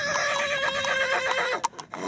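A stallion at a national breeding selection show whinnies in a long, quavering neigh, followed by a few short, sharp snorts or calls at the end. The sound is fairly faint.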